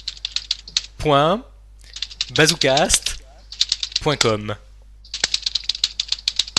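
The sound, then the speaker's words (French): Keyboard keys tapped rapidly while someone types in a web address, in quick bursts of clicks between stretches of talking voices. “redis l'adresse et moi je tape les touches.”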